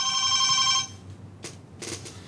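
A telephone rings for an incoming call-in caller at a radio station: one steady, bright electronic ring lasting under a second, then cutting off into quieter background noise.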